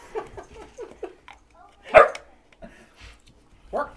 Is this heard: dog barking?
yes

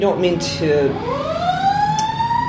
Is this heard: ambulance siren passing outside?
yes

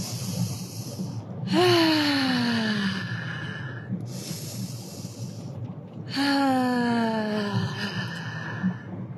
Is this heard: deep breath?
yes

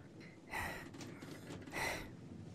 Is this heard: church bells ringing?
no

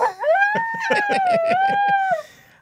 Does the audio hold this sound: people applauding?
no

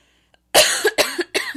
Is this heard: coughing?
yes

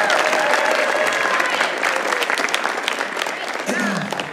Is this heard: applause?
yes

